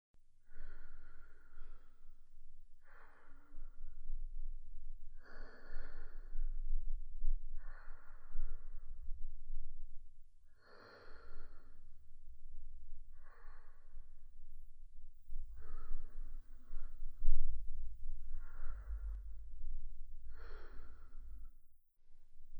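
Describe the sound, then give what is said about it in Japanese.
Slow, deep breathing at a self-paced rhythm: many long, regular breaths, each a soft airy rush, separated by short pauses, with no talk. “そのまま自分のペースで深呼吸を続けてね。”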